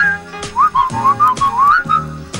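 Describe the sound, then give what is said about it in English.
A person whistles a short tune in quick, bright notes, one sliding up into a held tone, with a few brief breaks between phrases and no talking. “Come on, whistle.”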